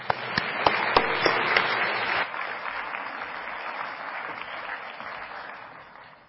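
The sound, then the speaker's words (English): A church audience applauds to welcome a guest speaker, with sustained, dense clapping that is strongest at first, then settles softer and fades away toward the end. “So let us give the rest of our time to Dr. Arthurs. Let's give him a hand of welcome.”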